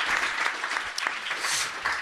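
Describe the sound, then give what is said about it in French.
Audience applause, a full, continuous patter of many hands clapping that holds at fairly even loudness throughout, with slight swells and dips. “On peut applaudir Daz. Merci.”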